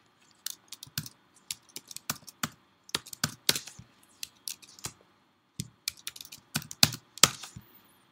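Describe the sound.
Typing on a computer keyboard while text is entered into a web form: many crisp key clicks in irregular bursts separated by short pauses, with no voices.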